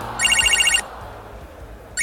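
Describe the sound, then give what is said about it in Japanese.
A phone ringtone sounds in a video game during a battle: a bright, high electronic trill pulses rapidly in one burst, pauses, then starts again near the end. “電話。”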